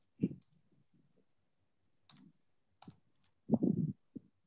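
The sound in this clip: Sparse keyboard typing: a few sharp, separate key clicks and short tapping clusters with quiet pauses between them. The taps are faint and irregular, with a denser burst near the end.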